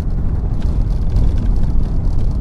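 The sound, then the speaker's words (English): Continuous low, rumbling vehicle noise from a car driving on a badly damaged, pothole-filled rural road to a health center in northern Ghana; the steady, rough drone stays fairly loud throughout, with no voices. “DW correspondent Maxwell Suk went for a bumpy ride to a health facility in northern Ghana.”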